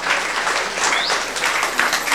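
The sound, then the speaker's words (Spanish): Applause from a church community gathering honoring catechists, ministers and children's leaders: dense, steady clapping from many hands, loud and even throughout with no voices over it. “Fuertes aplausos a los catequistas y a los ministros y también a los animadores de los niños. Fuertes aplausos, hermanos.”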